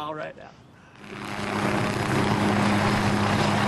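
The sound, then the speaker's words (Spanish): Engine and rotor noise of an old Vietnam-era Loach helicopter, building from a softer start into a loud, steady drone with a low humming tone. “Subimos al helicóptero que por otros 100 euros te permite disparar como si estuvieras persiguiendo a los milicianos del Vietcong. Hasta el aparato es un viejo Loach de la época.”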